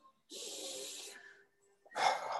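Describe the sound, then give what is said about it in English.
A deep, deliberate breath: a long, airy rush of air lasting about a second, then a brief silence before a second strong breath begins. “This is literally take a breath.”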